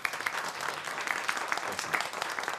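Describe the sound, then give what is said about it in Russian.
Applause from a small audience greeting a guest author as he is introduced, a soft but steady patter of many hands clapping throughout. “Это Денис Андреевич Северин. Ваши аплодисменты.”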